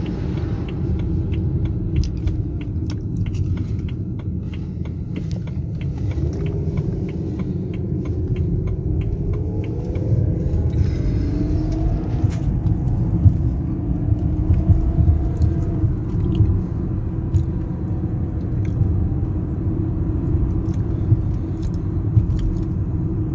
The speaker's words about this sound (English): Sorry, I'm watching a very peculiar vehicle running through my neighborhood.